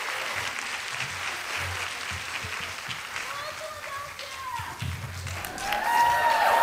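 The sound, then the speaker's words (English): An audience applauds to welcome a speaker: sustained clapping throughout, with a voice heard over it and the applause swelling louder toward the end. “Shama Hyder, everyone. Give her a nice warm welcome.”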